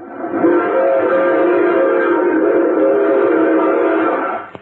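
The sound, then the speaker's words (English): A train horn holds one long, steady, loud chord-like blast for several seconds before cutting off. “No, that's a train.”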